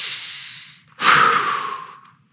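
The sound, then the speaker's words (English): A church audience takes a deep breath together during a sermon. The breathing is a broad, airy rush in two long swells, and the second swell is louder and fuller. “Would you take a deep breath as together we read these words?”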